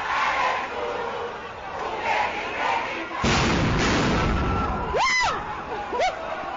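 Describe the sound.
Dense crowd noise from students in a parliamentary precinct, broken by a sudden loud burst as riot police fire stun grenades. A roaring wash follows, then a few sharp whistling tones near the end.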